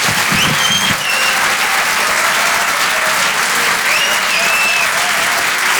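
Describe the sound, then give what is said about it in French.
Audience applause for a comedian at a comedy club night at the Apollo Théâtre in Paris: a loud, dense, steady wash of clapping that carries on evenly throughout with no talk over it. “Faites du bruit s'il vous plaît pour Mélodie Fontaine.”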